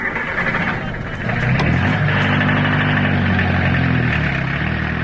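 Steady engine drone of a taxi car running, a fairly loud low hum with a steady tone that grows slightly fuller after the first second and holds evenly to the end.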